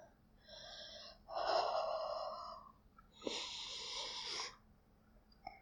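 A person breathes out softly against skin. A few long, airy exhales come one after another, each lasting around a second, with short pauses between, and the later ones are fuller and breathier. They are quiet and heard alone.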